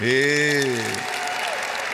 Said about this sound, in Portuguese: Aí, salva de palmas para o multimídia.